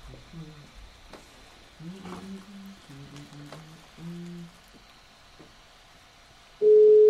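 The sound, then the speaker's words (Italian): A telephone rings on a call line. A few faint short bursts of low paired ringing tones repeat at a steady pace, then a sudden loud steady tone cuts in at the end. “Squilla.”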